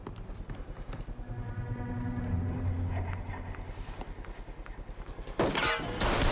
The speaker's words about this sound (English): They both shoot Tony's second in command.